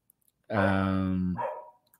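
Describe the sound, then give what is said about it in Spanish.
A small female dog gives one drawn-out, tonal bark-like yelp lasting nearly a second, trailing into a shorter, softer whine, with quiet before and after. “Mi perrita está ladrando.”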